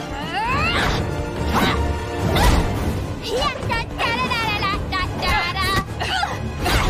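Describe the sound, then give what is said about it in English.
Two women fight on a stage gantry above a theater stage, with loud kicks, thuds and a crashing kicked box. Quick whooshes and grunting voices are mixed in. “She kicks a box towards Catwoman, then climbs up to the gantry where Catwoman swings up to confront her and they fight high above the stage.”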